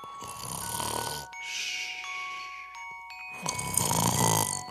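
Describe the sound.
Snoring from someone dozing off, a few drawn-out raspy breaths with quiet bell-like tinkling tones ringing between them.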